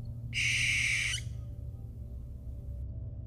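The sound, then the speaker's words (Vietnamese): An owl screeches at night in a dark forest: one harsh, loud, high-pitched screech lasting about a second, followed by a low, steady background hum. “Đâu đó thì con chim cú heo lại kêu lên những tiếng éc éc đầy chết chóc.”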